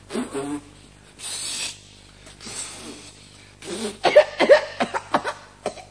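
Harsh coughing and sputtering after a wood shaving went down the throat. Softer breathy bursts come first, then a rapid run of many sharp coughs near the end.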